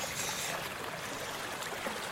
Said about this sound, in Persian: کانال آبه.